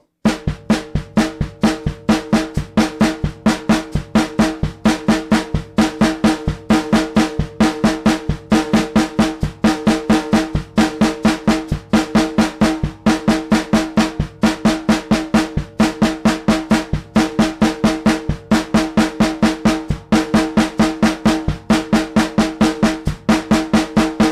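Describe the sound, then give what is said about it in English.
A drum kit exercise: steady quarter notes on the hi-hat while hand and foot strokes alternate in growing groups, building fills over a constant pulse. Many crisp, evenly spaced hits at a moderate, unchanging level, with no voice. “Next, we'll play quarter notes on the hi-hat and alternating hand and foot notes. One in the hands, one in the feet. Two in the hands, one in the feet. Three in the hands, one in the feet. So on all the way up to eight or nine. Like this.”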